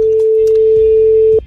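A telephone tone sounds as a number is about to be dialed: one loud, steady, mid-pitched tone held for about 1.4 seconds before it cuts off.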